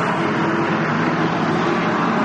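Continuous engine roar of vintage race cars on a track during practice or qualifying, with several classes running at once. A steady, loud, dense drone without distinct pass-bys, and no voices.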